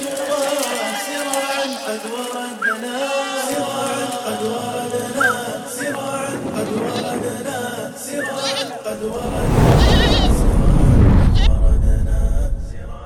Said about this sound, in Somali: mashruucan kubcinta xoolaha waa qayb ka mid ah sakada xoolaha nool ee laga qaybiyay wilaayadka Islaamiga